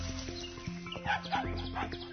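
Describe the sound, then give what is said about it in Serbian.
A small dog of a tiny breed barks on a street, a few brief high yips over a steady low hum. “Jedan pas. Neke sitne rase. Čupka nas za dugačke pantalone.”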